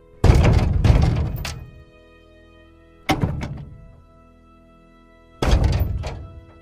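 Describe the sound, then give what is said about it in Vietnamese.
Heavy banging on a bathroom door: loud, booming thuds in three bursts, the first a quick double hit. Each burst rings out briefly before quiet returns. “bên ngoài cánh cửa của tôi đã nghe thấy tiếng đập cửa.”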